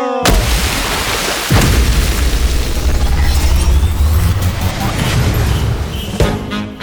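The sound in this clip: An explosion bursts out loudly with a sharp onset, then a heavier booming blast follows and roars on in a sustained low rumble for several seconds before cutting off.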